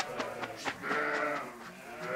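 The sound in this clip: Pregnant East Frisian milk sheep bleating during a move by trailer, several wavering nasal bleats in quick succession, fairly faint, with a longer sustained cry in the middle and no voices.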